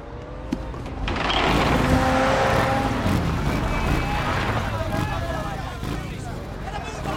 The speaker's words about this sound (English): He sees a convoy of military vehicles approaching.